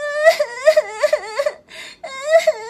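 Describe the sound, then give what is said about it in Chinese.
A voice imitates a little rabbit crying sadly, with a run of high, wavering sobbing wails, a brief pause, then one more drawn-out sob. “伤心的哭了起来”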